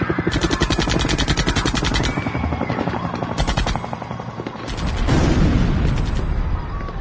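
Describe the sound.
Police gunfire at dawn as officers open fire on Indigenous protesters blocking a highway near Bagua Grande: loud, rapid bursts of many shots that repeat in several volleys, with a low rumble beneath them.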